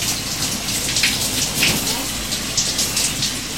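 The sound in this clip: A shower runs as someone wets their body, the water hissing and spattering in a steady, dense stream without pause.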